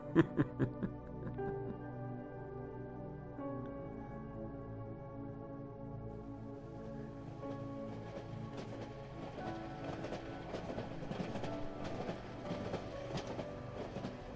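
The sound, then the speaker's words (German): A train running on rails: a steady rumble with a tonal hum and metallic rattling, a few sharp clacks at the start and denser clicking that grows busier toward the end, with no talking. “Vielleicht sitzt Rainer auch in diesem Zug. Man weiß es ja nicht.”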